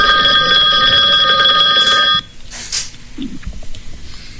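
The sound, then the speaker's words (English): Telephone ringing with an incoming call: a loud, steady electronic ring lasting about two seconds that cuts off abruptly, followed by quieter low rustling noise. “We got a call in. We got a caller.”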